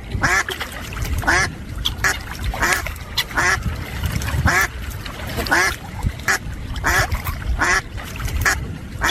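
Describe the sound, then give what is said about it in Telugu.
Many ducks quacking as they crowd toward people expecting food. Loud, nasal, overlapping quacks repeat in an irregular but steady stream throughout. “బాతులు తెల్లగా అందంగా ఉన్నాయి కదండి. అవును, ఈ బాతులు ఇంత పెద్దగా ఉన్నాయేంటండి?”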